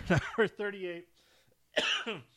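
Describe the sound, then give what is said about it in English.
Coughing that breaks out of half-started laughter: a few harsh, voiced bursts with some throat clearing, a short pause, then another burst. “I was half starting to laugh, and then that caused me to start to cough.”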